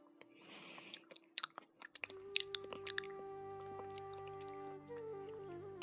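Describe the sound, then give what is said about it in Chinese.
Quiet, soft chewing of a banana with a few small wet bites and squishy munches over a faint, steady tonal hum. “这又是谁在吃香蕉？”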